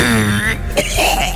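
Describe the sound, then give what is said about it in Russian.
A man's hoarse, voiced cough: a short rasping throat-clearing bout with a harsh burst near the middle. It is heard alone, with no talk over it. “Его то и дело прерывали приступы кашля.”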